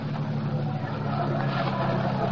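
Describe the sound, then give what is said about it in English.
Car engine at an amusement park, a low steady rumble with no clear changes as the vehicle drives through a gate to park. “Oh, here we are. Drive right through the gate. You can park alongside that car.”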